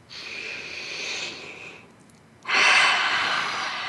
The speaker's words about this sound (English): Just take a deep breath.